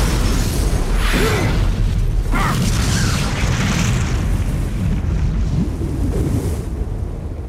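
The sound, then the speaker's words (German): A stock of dynamite stored beside a henhouse explodes in a loud, sustained roaring rumble that fills the whole clip without pause, with deep low booms under a noisy blast and a slight tapering off at the very end. “Sie haben wohl Ihr Haus in die Luft gesprengt?”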